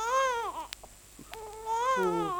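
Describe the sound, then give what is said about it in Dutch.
A baby cries in a cradle, a few faint wavering wails with sobbing breaks between them. “Hoor nou eens eventjes. Petra gaat ervan huilen.”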